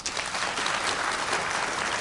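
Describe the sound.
Audience applause fills the whole stretch, a dense, steady wash of many hands clapping at even loudness with no single voice standing out.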